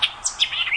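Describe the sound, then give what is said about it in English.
White-eyed vireo song: a quick run of high, sharp, chirping notes, with separate clear chips at first that quicken into a brisk jumbled phrase, all heard alone. “That's the song of the white-eyed vireo.”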